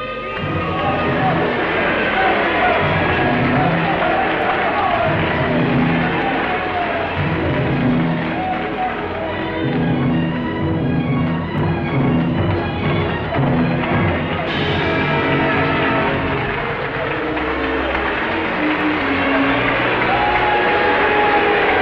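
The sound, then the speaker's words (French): Concert audience shouting, whooping and cheering loudly and without pause, a dense roar of many voices that buries the orchestra trying to play beneath it. “Attendez ce pauvre orchestre hein, qui essaye désespérément de jouer et qui est couvert par le public.”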